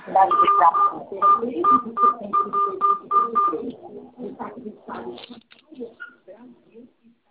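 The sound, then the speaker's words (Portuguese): Telephone keypad tones as a Brazilian CPF ID number is keyed into an automated bank phone line: a quick series of short, clear beeps, followed by people talking. “pediu para eu digitar o meu CPF. Eu vou digitar agora.”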